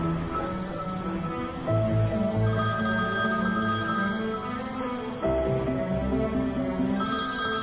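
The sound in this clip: A telephone ringing: a bright electronic ring pattern that repeats in cycles, steady and fairly loud, with no voices.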